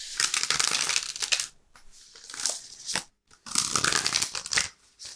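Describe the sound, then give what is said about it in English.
Cards are shuffled and a tarot card is drawn from a Thoth deck, producing dry, crisp rustling and scraping in three bursts separated by brief pauses. “So let's do what we do, pull a tarot card, and then learn about the power of sound.”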